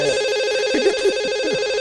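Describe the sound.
A telephone rings with an incoming call to a live call-in show, a steady electronic tone sounding throughout.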